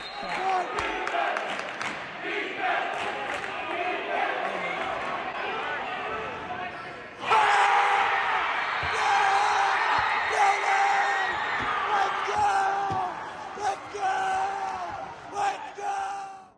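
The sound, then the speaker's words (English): During a basketball game, ball bounces and crowd noise build before the crowd erupts into loud, sustained cheering and yelling midway, after a half-court pass leads to a made shot. Voices talk throughout. “My point guard throws a half court pass into the uh, my shooter's hands, and he nails the shot.”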